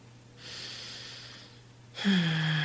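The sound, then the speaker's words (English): A person takes a big, deep breath. The soft, airy inhale lasts about a second, and a louder breathy onset follows near the end. “And so I want you to take a big, deep breath right now with me.”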